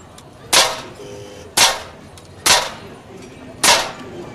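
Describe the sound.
Four sharp carbine shots at a fairground shooting gallery, each a loud, quick crack that fades fast. They fall at slightly uneven intervals over a quiet background.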